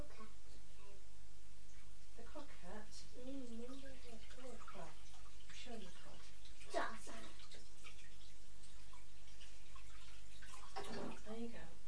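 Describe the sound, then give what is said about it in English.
Water runs steadily from a sink tap while hands are washed under it. The flow stays constant, with splashes and voices talking over it. “And there's lots of things in the sink. That's it. Don't put your hands in a bowl. Just do it under the tap.”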